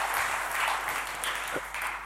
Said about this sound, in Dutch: Zullen we ze een geweldig applaus geven?